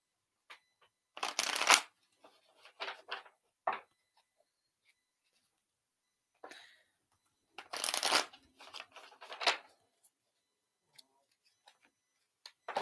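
A deck of cards is shuffled for a card reading: two main bursts of riffling with smaller shuffling and tapping sounds between, separated by quiet gaps, heard alone without talk.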